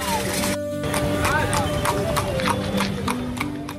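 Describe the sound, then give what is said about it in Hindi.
Hooves of horses clip-clop in a quick, regular rhythm at a traditional ekka horse-cart race held in the month of Sawan, a steady clatter running beneath continuous talk. “तो तमाम घोड़े, एक से एक नस्ल के घोड़े यहाँ पर दिखाई पड़ रहे हैं”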